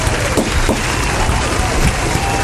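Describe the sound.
A studio audience applauds with steady, dense clapping throughout, with voices mixed in.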